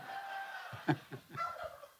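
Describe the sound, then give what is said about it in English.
Two turkeys gobbling and clucking in a few short, throaty bursts over a steady background hiss. “these two turkeys are getting boosted. yeah, here. I love them talking to me like this.”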